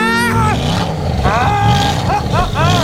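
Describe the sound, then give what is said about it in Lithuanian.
A sports car engine revs in several rising surges, loud and roaring, with the pitch climbing on each burst. “Mat maždaug taip skamba tas sportinis automobilis.”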